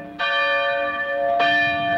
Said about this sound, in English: Bright, shining morning and the bells of the town ringing out beyond his window.